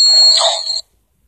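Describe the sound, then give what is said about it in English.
An electronic alarm going off, a loud, steady high-pitched tone that sounds for under a second and then cuts off abruptly to silence. “Alarm's going off”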